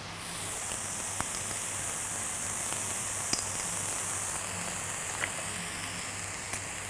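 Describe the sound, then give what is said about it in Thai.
Rice sizzles as it is stir-fried in a pan with fish sauce and oyster sauce, giving a steady, even hiss dotted with a few faint crackles and ticks. “ผัดให้เข้ากันเวลาเราผัดข้าวนะคะเราอย่าไปกดข้าวอย่าไปบี้ข้าวเพราะว่าเดี๋ยวมันจะแฉะ”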